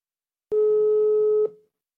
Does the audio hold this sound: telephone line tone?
yes